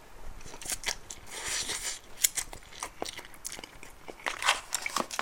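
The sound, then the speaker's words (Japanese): Eating sounds from extra-spicy Peyang instant tantan noodles: many irregular crackly, crunchy mouth noises and sharp biting clicks, fairly quiet and continuous, with no talking. “僕は食べるよ”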